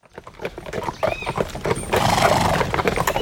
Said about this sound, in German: Am Vorabend der Hochzeit reitet der Hochzeitslader mit seinen Begleitern durch den Ort und lädt die Bevölkerung ein.